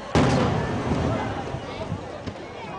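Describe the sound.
Fireworks burst in the night sky at a summer festival: a sharp, loud boom with a long, rumbling decay, then a second fainter pop near the end.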